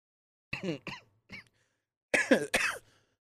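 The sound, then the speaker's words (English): A lingering cough, a few short coughs followed by a louder, quicker cluster of coughs after a brief pause, with no talking. “Excuse me, this cough is still not going away.”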